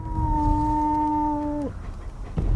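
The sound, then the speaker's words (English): Dog howling at night in the bushes outside a house, a long, steady, tonal howl held at one pitch before it drops away sharply, followed by quieter low rumbling. “The dogs sit on the veranda. One howls in the bushes.”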